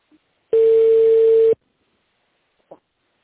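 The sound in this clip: A telephone tone sounds while an office call is transferred to a tender department: one steady mid-pitched beep lasting about a second, then quiet and a faint short blip.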